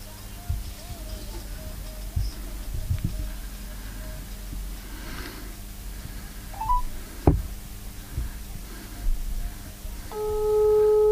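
Telephone dialing tones while placing a call: a steady, layered electronic tone sounds loudly near the end, after a long stretch of quiet background with faint scattered noises and one sharp click.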